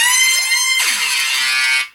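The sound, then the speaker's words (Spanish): A DJ warning sound effect played from a soundboard: a loud, blaring horn-like blast with falling, swooping tones sweeping through it holds steady for almost two seconds, then quickly cuts off. “Y también tengo la advertencia del DJ, este quizás lo pueda ocupar.”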